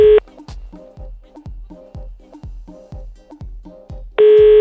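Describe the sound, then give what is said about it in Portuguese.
A telephone busy signal plays on a call that cannot get through. It is a loud, steady train of many short, evenly spaced beeps, framed by a longer unbroken tone at the start and again at the end. “O número que você ligou está ocupado.”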